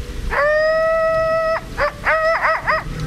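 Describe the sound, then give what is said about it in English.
A coyote's threatening yell: one long, steady, harmonic howl of more than a second, followed by several short yips whose pitch bends. The sound is loud and heard alone, with no talk. “A threatening humanoid yell rose from the coyote's throat.”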